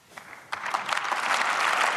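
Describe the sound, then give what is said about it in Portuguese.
Applause in the Bundestag after Friedrich Merz is elected chancellor in a second-round vote. A few scattered claps quickly swell into steady, loud clapping that keeps building to the end. “Aplausos para Friedrich Merz, que foi eleito a segunda volta, o décimo chanceler da República Federal da Alemanha”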